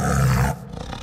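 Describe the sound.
A tiger roaring, a loud, low, rough roar lasting about half a second that then drops away to a quieter rumbling tail.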